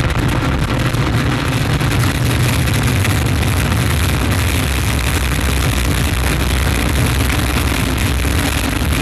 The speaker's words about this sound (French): top, allumage Vulcain. Allumage confirmé. Top, allumage EAP, décollage.